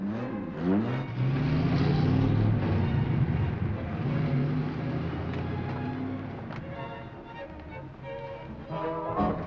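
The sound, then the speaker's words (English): A convertible limousine's engine drones and revs as the car drives off, a sustained motor rumble that gradually eases in level before swelling slightly again at the end. “convertible limousine. Jack gets his glasses out of his top pocket, puts them on, and gets in. Durand looks as though he has an idea. Jack drives off.”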